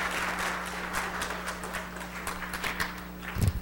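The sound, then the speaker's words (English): An audience in church applauds in a dense, steady patter of many hands over a low hum, with a few sharper claps and a low thump near the end. “Can you give Shannon a great big hand this morning?”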